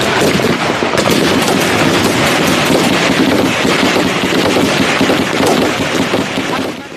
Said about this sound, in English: RPG fire, small arms fire, technicals that they used, heavy machine guns.